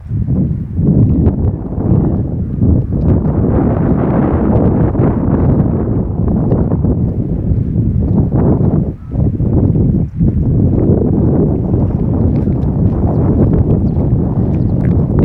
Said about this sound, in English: Again, the wind now blows. I can feel it on.